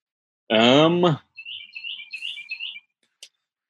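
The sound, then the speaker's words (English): Birds chirping outside in trees: a quick run of many short, high chirps and twitters follows a brief voiced sound at the start, with a single faint chirp near the end. “I hear those birds chirping in the back. It's so beautiful.”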